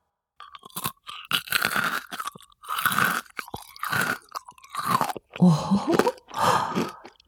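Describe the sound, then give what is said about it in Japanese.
Biting and crunching of spoon-shaped kohakutou crystal candy: many crisp, brittle crunches in separate bursts of chewing, loud and close, with short silences between bites. “どれから食べようかな。スプーン型の琥珀糖、どんな感じなんだろう。”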